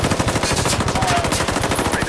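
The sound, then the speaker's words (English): Machine gun fire in combat, with tracer rounds aimed at scraps of metal. A rapid, unbroken stream of loud shots hammers on for the whole stretch. “Follow my tracers! He's shooting at scraps of metal.”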